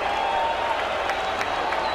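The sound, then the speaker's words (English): Baseball stadium crowd at a Braves game with the bases loaded on a 3-1 count, a steady dense roar of cheering and applause without distinct voices. “So the base is loaded, the count at 3-1. Crowd gets into it.”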